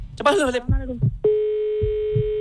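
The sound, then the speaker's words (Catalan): Ringing from an outgoing phone call to a kebab shop, a steady mid-pitched tone that begins after a brief burst of voice and holds to the end, with soft low thumps beneath. “Perfecte, doncs anem a trucar al Turco Doner Kebab.”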